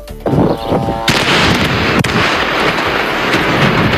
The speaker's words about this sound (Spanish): Este es el sonido de los bombardeos de Israel sobre el Líbano.